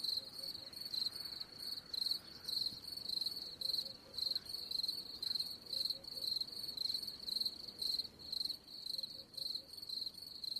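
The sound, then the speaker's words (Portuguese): Cicada sound effect: a shrill, high buzzing drone pulsing in a steady rhythm of many short bursts, fairly faint and heard alone without talk. “Eu sinto saudade da cigarra de Josh. Então põe a cigarra de Josh. Cigarra de Josh.”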